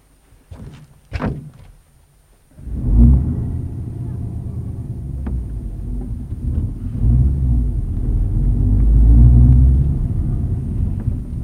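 A car drives off: a couple of dull thunks at the start, then a low engine rumble sets in and holds steady, swelling slightly toward the end.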